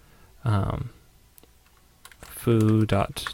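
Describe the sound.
A computer keyboard is typed on, with tab presses during coding autocompletion. A few sharp, faint key clicks fall between two short bursts of a person talking.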